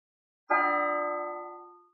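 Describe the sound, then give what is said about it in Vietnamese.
A single bell stroke from a distant imperial palace rings out over a snowy lake, a rich, steady ringing tone that slowly fades over about a second and a half, heard alone. “Tiếng chuông từ hoàng cung xa xôi cuối cùng cũng truyền đến hồ Nhạn Minh.”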